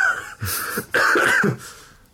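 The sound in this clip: A person coughing and clearing their throat after choking: two harsh, voiced bursts of rough, strained coughing, each lasting about half a second, then a trailing rasp that fades.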